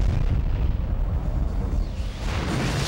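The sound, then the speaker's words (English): A cartoon bomb explodes with a loud, sustained rumbling blast, a dense low roar that holds steady for about three seconds with no voices. “An animated bomb is dropped.”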